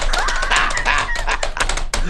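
Rapid typing on a keyboard, a dense, continuous clatter of fast key clicks that stays loud and steady, with no voices.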